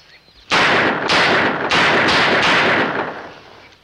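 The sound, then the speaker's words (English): Blank cartridges fired from a gun, several loud, sharp shots in quick succession, each blast broad and harsh, merging into a sustained roar that fades away at the end. “He was only shooting blanks, but it was enough to convict him.”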